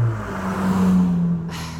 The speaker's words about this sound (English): I really want to say goodbye to these cars just passing by